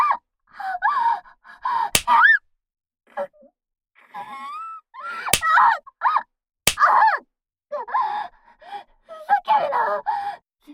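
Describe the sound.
Sharp hand slaps on bare buttocks, three loud smacks spread apart, set among breathy gasps, moans and strained vocal sounds between the blows.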